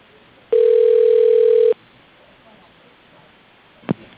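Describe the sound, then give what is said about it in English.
Telephone ringback tone sounds once while a call is transferred: a steady, mid-pitched tone lasting about a second over faint line hiss, followed later by a brief click. “Your call is being transferred.”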